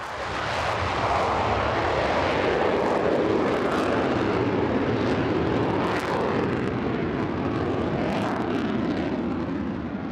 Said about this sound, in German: Gestartet wird wie im Ernstfall, Vollschub und dann senkrecht in den Himmel.